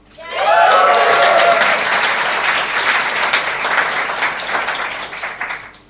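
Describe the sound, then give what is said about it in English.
Applause from a comedy show audience, a loud burst of many hands that swells quickly, with a brief whoop near the start, then slowly thins and fades toward the end. “So please, a big round of applause for Michael and Will.”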